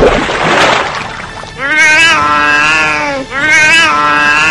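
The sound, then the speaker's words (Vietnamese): A soaking-wet cat that has just leapt out of a bathtub gives a burst of splashy, shaking noise, then two loud, drawn-out meows with a falling tail, one right after the other. “Tư Dao thấy con mèo Linda ướt đầm từ bồn tắm ngoài xa nhảy xuống đất, lắc mạnh toàn thân, rủ cho nước bắn ra, kêu mèo mèo.”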